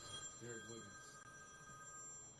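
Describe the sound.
A telephone rings with an incoming call: a short burst of warbling electronic ringing, faint, over a steady background hiss and hum.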